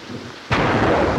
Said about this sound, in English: She squints in the pelting rain and treads through water 3 inches deep.